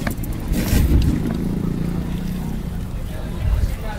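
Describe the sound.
A steady low engine and road rumble from inside a car being driven, a continuous broad drone that swells slightly at moments.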